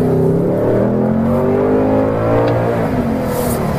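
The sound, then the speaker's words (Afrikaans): A Ford Mustang engine revs in a loud, sustained roar, its throaty tone holding steady with slight shifts in pitch throughout, and no talking. “Ford Mustang, nou dis gaan die laaste keer dat jy hierdie engine laat praat.”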